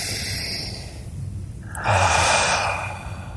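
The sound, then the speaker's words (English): A deep belly breath taken as a calming exercise: a soft, steady airy rush that swells briefly and then fades, with no talk over it. “We did a nice deep belly breath. Let's do it.”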